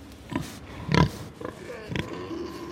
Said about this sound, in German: Im Gang vor ihr wird ein Eber auf und ab getrieben, der nur dazu da ist, die Sauen in die richtige Stimmung zu bringen. Eber und Sau beschnuppern sich. Der Eber riecht stark. Er sabbert.